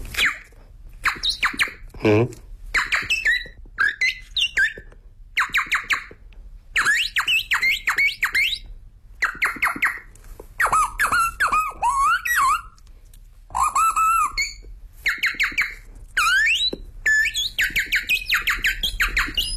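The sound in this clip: A performer's voice imitates bird calls: many rapid, high chirps, squeaks and whistled trills come in uneven bursts with short pauses between them.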